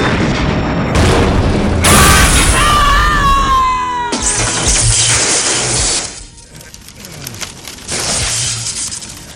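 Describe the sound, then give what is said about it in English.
A torpedo strikes a ship with a heavy booming crash and clattering debris, mixed with falling, whining tones, then a second loud burst of rumbling noise that dips briefly before surging again; no clear talk. “Sir, destroyer on our port elevation. Torpedo inbound. Reinforce port shields. We have no port shields, sir. All hands, brace for impact.”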